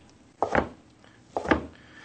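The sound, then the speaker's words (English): A knife cuts seitan into small strips, making two soft, quiet chopping strokes about a second apart with nothing else around them. “of seitan here, and we're going to cut them into small strips.”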